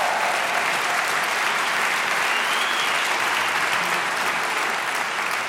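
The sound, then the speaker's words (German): Audience applause rewards the WDR Funkhausorchester at a concert, a dense, steady wash of many hands clapping that holds at an even, loud level throughout with no clear breaks. “Dieses sensationelle Orchester, das WDR-Funkhausorchester unter Leitung von Enrico Delambois. Bitte nochmal einen Riesenapplaus für diese fantastischen Abend, meine Damen und Herren.”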